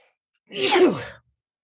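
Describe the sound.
A single short sneeze, a breathy burst that rises quickly and cuts off within well under a second, heard alone with silence on either side.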